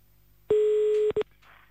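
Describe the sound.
Telephone line tone after a call is cut off: one steady mid-pitched tone lasting about half a second, then a brief second beep, followed by faint noise.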